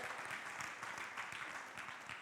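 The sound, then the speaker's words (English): An audience applauds during a talk, a short, even patter of many claps at a fairly quiet level with no break. “You can clap for that, yeah.”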